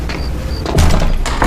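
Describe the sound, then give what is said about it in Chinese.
A door being shut: a single deep, heavy thud with a brief rumble, set against steady background noise. “你俩出去，把门关上。”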